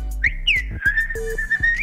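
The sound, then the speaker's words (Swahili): A person whistling in Nyabo, Dodoma: a short, wavering high-pitched melody, clear and loud, with sustained and sliding notes. “Tupate mluzi kutokea pande hizo.”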